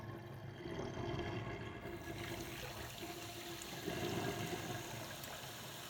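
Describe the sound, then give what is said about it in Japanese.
Running water rinsing shampoo out of hair, a soft, steady rush that continues evenly throughout at a low level. “はい、もう十分にシャンプーしたので、そろそろ洗い流しますね。”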